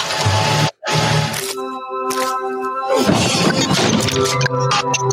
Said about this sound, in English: I'm Neil Blomkamp, and I have a ton of computers and a monitor strapped to the front of this Hummer, and I'm about to smash them to pieces.